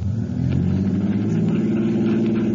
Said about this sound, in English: Start your motor.